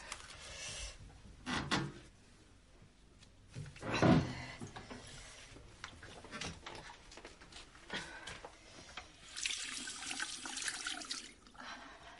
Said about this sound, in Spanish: Se lava las manos